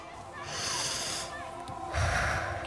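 A child breathes in deeply. There are two long, breathy, slightly snorting draws of air, and the second is louder and rougher than the first.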